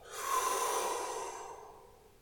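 One slow, soft breath drawn in and let out, a gentle airy rush that swells and then fades away gradually, faint and alone.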